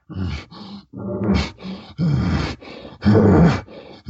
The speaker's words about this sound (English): When a bull uses a pant, and a pant is this.